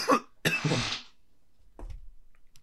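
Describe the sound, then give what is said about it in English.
Harsh, raspy throat clearing in a few bursts: a short one, then a longer, louder rasp, and after a pause a fainter, softer one. “Yeah, just had to clear out the old throat.”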